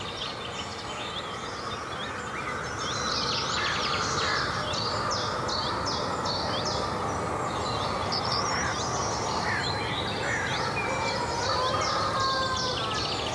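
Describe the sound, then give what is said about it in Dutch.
Many birds sing and call together across woodland and open farm polders in North Brabant, a dense, steady chorus of overlapping chirps and whistles over a constant broad hiss, unbroken from start to finish. “We horen talloze vogels, blaffend ree, geluiden van de boerderij en wat verkeer.”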